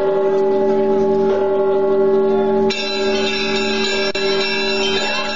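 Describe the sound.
Church bells ring from a church tower in a loud, sustained metallic wash of overlapping tones that grows brighter and richer partway through.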